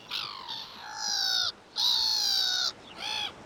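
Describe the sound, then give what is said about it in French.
A black-headed gull calls in four harsh, harmonic screeching cries, the third the longest, with short gaps between them and no other sound. “un autre oiseau qui, contrairement à ce qu'on pourrait penser, n'est pas marin, lui, la mouette rieuse. Mouette, c'est à vous.”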